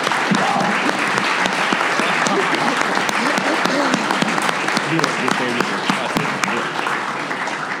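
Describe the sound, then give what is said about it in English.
Sustained audience applause for a discussion panel, dense and steady clapping that stays loud throughout with no pause. “And let's give it up for our panelists here.”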